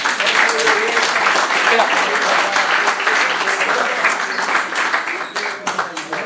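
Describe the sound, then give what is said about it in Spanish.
Audience applause during a talk, dense, loud clapping from many people with some voices underneath, strong and continuous before thinning slightly near the end. “Muchas gracias. Un aplauso.”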